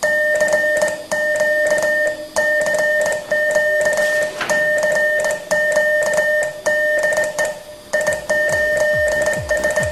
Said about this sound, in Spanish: Hoy por hoy, decir telegrafía es decir radioaficionado. Suena así.